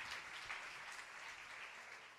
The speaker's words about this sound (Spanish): Dele palmas de alabanza, amados hermanos.